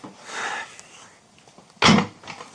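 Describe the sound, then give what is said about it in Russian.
A door is pulled shut with one short, solid thump, moderately loud against a quiet background. “Заходи, дверь закрывай.”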